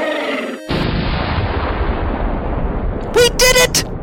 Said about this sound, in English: Watch out for its fire attack!